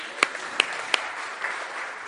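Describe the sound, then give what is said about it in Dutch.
Audience applause after volunteers are chosen, heard as a steady, moderate wash of clapping with a few sharper accents rising out of it. “Prima. Applaus.”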